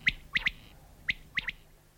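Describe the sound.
Birdsong recorded in clover fields of the Luga district: six short, sharp, high chirps, arranged as a single note, a quick pair, another single, then a final pair, over a faint low background.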